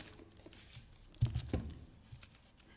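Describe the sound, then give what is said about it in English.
Paper rustling and crumpling at a lectern, faint and sparse, with a short cluster of crisp crackles in the middle of an otherwise quiet stretch. “Sorry, I'm having a little paper malfunction up here.”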